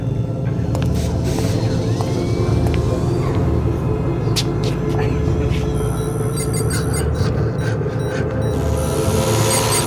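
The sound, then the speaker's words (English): Spacecraft atmosphere thrusters fire during a landing, producing a continuous heavy rumbling roar throughout, with hiss and scattered higher clicks and rattles on top. “The atmosphere thrusters? Atmosphere? Oh, but that would mean... Yeah. We're landing.”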